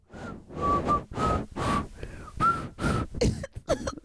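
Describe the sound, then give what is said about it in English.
A person whistling a tune: a series of short, clear whistled notes at a steady mid pitch, each wrapped in breathy puffs of air, with a few quicker, choppier notes at the end. “I was just whistling some shit, bro.”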